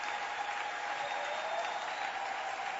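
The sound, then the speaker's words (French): Crowd applause in a dense, steady wash of many hands clapping at an even level throughout, with no separate cheers or voices standing out. “Alors ça vaut la peine de l'acclamer.”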